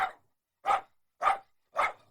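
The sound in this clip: A small dachshund barking four times, each a short, mid-pitched burst at an even pace with silence between them and no voices.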